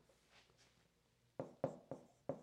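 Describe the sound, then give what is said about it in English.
Handwriting, heard as four short, sharp scratching strokes in quick succession after a near-silent stretch, all faint. “I'm gonna write this the way I wrote it down on the plane.”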